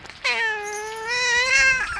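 A cat gives one long, drawn-out meow, a clear high-pitched cry lasting over a second after a brief soft sound, heard alone with nothing else around it.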